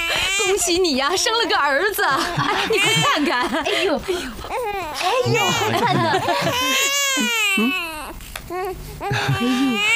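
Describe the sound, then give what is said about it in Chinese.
A newborn baby boy cries nonstop, loud wavering wails that rise and fall in pitch, broken only by quick gasping breaths. “罗将军呐，恭喜你呀，生了个儿子。哎，你快看看。”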